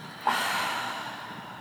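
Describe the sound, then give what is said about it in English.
A deep breath taken during a guided breathing exercise: one forceful, airy rush of breath that begins sharply and fades slowly over about a second and a half. “Take a deep inhale and then exhale. Inhale, 1, 2, 3, and exhale.”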